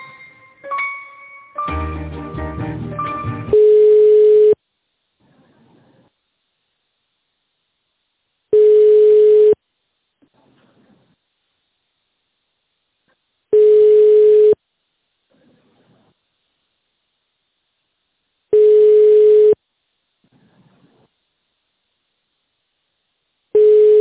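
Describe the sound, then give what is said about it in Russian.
Telephone line tone during a call transfer: a short burst of mixed electronic tones, then four steady mid-pitched beeps, each about a second long, evenly spaced with silence between them. “Секунду, переведу звоночек.”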